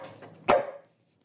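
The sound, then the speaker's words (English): Dog barking, from one of two pet dogs at home: a single short, sharp bark stands out over a soft lead-in and quickly fades into silence. “She lives in Duxbury with two dogs named Casey and Nettles.”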